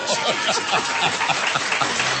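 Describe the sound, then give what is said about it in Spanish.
An audience applauds with steady, dense clapping throughout, with a few chuckles and voices mixed in. “Un aplauso para Vicky”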